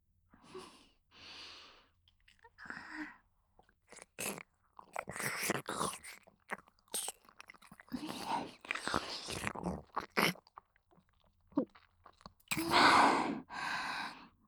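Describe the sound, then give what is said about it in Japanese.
Soft, wet licking and sucking sounds come as fingers are licked clean. They arrive in many short, irregular bursts mixed with breathy sighs and exhales, all fairly quiet with pauses between them. “手についたの舐めていいですか？”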